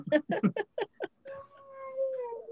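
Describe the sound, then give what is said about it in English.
A female husky whining and complaining in a meow-like voice while shut in a back room during visitors: a run of short, yowling cries gives way to a long, wavering high whine. “She's a husky and she's complaining because she's locked back here when there's visitors out in the living”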